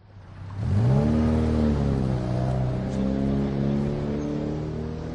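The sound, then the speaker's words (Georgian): Car engine noise on city streets in Tbilisi, from a vehicle giving off dark exhaust: a low harmonic engine drone swells up sharply in the first second, then holds a loud, steady rumbling tone. “ავტომობილების ასეთი ხმაური, რომელსაც თან ახლავს მუქი ფერის ჯამთელობისთვის საზიანო გამონაბოლქვი, უცხო არ არის თბილისის ქუჩებისთვის.”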